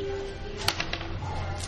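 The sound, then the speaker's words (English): Dice rolling during a party question game: a brief clatter of a few quick, sharp clicks in the middle, faint over a steady low hum. “Roll your dice.”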